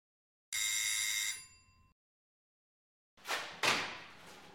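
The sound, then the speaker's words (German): A doorbell rings once with a bright, buzzing tone that holds for about a second and then fades, followed after a pause by two short noisy bursts. “Hanna ist gerade wieder in der Küche, als es schon wieder klingelt.”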